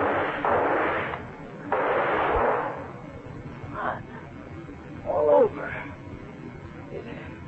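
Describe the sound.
Gunshots fired at a leech in a radio drama: two bursts of noise, each with a short decaying tail, followed by quieter moments and faint voices.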